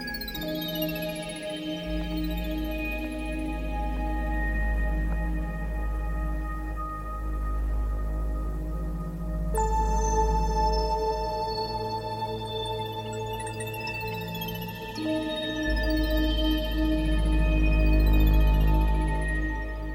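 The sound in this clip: An electronic synthesizer effect in a film score suggests trickling water. Sustained humming tones are layered with gliding chirps over a deep, steady low drone, with no talk.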